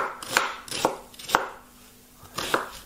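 A knife chopping two sweet new onions: a few crisp, sharp strikes at an uneven pace, separated by short pauses, with no talk.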